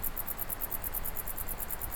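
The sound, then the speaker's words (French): Crickets and grasshoppers chirp in a windy high mountain valley with a south wind blowing. Rapid, regular high-pitched pulses repeat many times over a continuous low rumble of wind. “Ambiance venteuse, vent de sud, criquet, sauterelle pour cette carte postale.”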